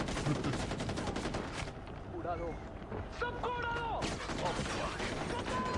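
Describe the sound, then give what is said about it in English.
Gunfire from video game gameplay shown at a 2014 game press event, with dense, loud bursts of shots running almost continuously and voices speaking over the action. “I pointed a gun in the guy's face and started shooting it. And somehow missed.”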